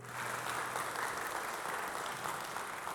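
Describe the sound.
An audience applauds to welcome a speaker at an Olivet Nazarene University theology school gathering: three seconds of steady, dense clapping at an even level, with no voices standing out.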